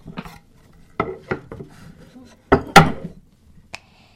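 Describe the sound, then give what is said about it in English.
A toy tray and play dishes clatter as children pretend to bake cookies: several sharp, hollow plastic clacks and knocks arrive irregularly, with the loudest pair in the second half and quiet gaps between them. “We need a tray. Some place to put our cookies. How about this could be our tray?”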